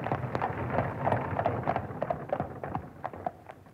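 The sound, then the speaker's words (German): Hooves clip-clop as a horse-drawn coach arrives, a steady, faint run of many hoof beats. “Ich glaube, dort kommt die Kutsche.”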